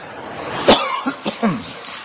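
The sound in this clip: A single sharp cough followed by a few softer throat-clearing bursts, short and moderately loud over faint background hiss.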